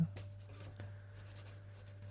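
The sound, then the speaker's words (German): Handwriting, as someone writes a note to colleagues: faint, scratchy pen strokes on paper, a few short bursts over a steady low hum. “Liebe Kollegen, schreibe jetzt mal.”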